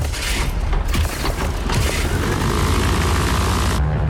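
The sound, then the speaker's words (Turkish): Aircraft right engine starting up, a loud, dense, continuous roar with a deep rumbling low end that holds steady throughout. “Sağ motor çalıştırma. Başla. Başladı.”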